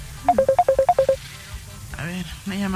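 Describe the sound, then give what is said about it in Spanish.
A telephone ringtone for an incoming call plays as a quick run of short, bright electronic beeps in a bouncing pattern, then a voice begins speaking. “A ver, una llamada.”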